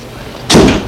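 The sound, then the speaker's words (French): A door shuts behind someone entering a large house. After a quiet moment it closes with a single dull, solid thud that fades quickly. “La porte s'est refermée derrière lui.”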